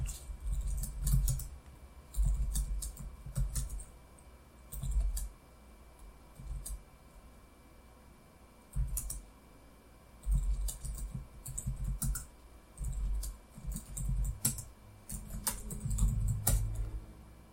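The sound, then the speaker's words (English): Someone types a terminal command on a FreeBSD computer's keyboard in irregular bursts of quick key clicks separated by short pauses. The clicking is moderately loud and clear, with no talking. “If you open up your terminal on your FreeBSD machine and type man7 security, I think that's the syntax for man pages. Let me check real quick.”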